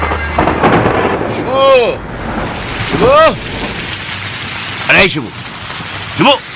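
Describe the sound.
Steady rain hisses without a break, with several louder swelling sounds rising over it at intervals.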